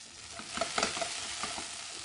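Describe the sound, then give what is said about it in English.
Sausages fry fast in a hot pan with a steady crackling sizzle, broken by a few sharper pops and spits. There is no talk. “So we're getting our sausages and they are cooking fast here.”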